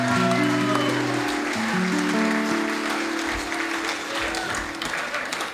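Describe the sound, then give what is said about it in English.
Audience applause: many people clap steadily and loudly throughout, with sustained tones running underneath before the clapping fades slightly at the end. “Which deserves a round of applause, ladies and gentlemen.”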